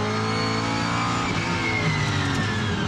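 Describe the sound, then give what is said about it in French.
A car engine revs hard in third gear as the car, with no ABS and a loud gearbox, accelerates into a drift on a loose dirt circuit. It makes a loud, continuous, droning roar with strong steady harmonics. “un peu gros bruit de boîte, hop, j'accélère. La caisse part en drift direct.”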